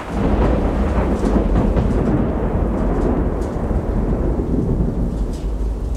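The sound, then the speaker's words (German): A violent thunderstorm breaks over the harbour of Bastia. Heavy rain hisses steadily while loud, deep thunder rumbles continuously throughout. “Das Unwetter brach los mit aller Macht, als wir buchstäblich in letzter Sekunde den Hafen von Bastia erreichten.”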